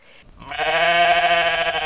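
A sheep gives a single long, loud bleat with a wavering, nasal tone, heard alone after a short, quiet lead-in.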